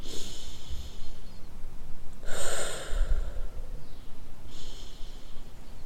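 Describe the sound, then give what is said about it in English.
A person taking deep breaths, with one loud, airy breath near the middle and a softer breath later, over a faint background hiss. “I just need to take a few deep breaths.”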